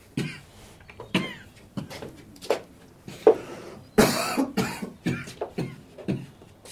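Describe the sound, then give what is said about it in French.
A long fit of harsh coughing, with many short bursts that bunch into quick runs toward the end. Some have a rough, throat-clearing edge. “Je t'ai entendu tousser toute la nuit.”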